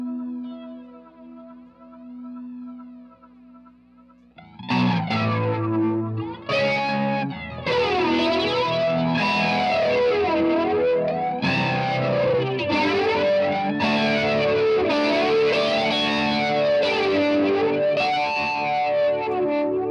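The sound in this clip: Overdriven electric guitar through Carbon Copy delay, OCD overdrive and flanger pedals: a soft held note gives way to a run of loud strummed chords, their tone sweeping up and down in a wavering, jet-like whoosh over echoing repeats.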